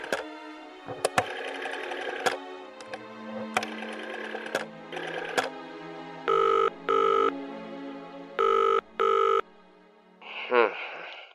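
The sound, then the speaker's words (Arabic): Rotary dial of a black government telephone being turned, giving several bursts of whirring mechanical rattle, followed by four short, loud, steady electronic tone bursts. “الهاتف الحكومي الأسود البارد. أدير القرص.”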